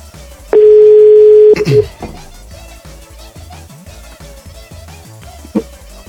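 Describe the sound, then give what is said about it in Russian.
A telephone dial tone as a call is placed: one steady, clear tone lasting about a second, then a single short beep several seconds later. “Я ему набираю.”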